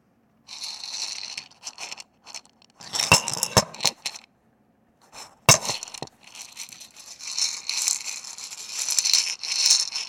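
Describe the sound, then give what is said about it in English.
Jelly beans rattling in a bowl, intermittent bursts of small crisp clicks and scattered clinking taps separated by short silences, quiet and without voices. “So here we go. A bowl of jelly beans.”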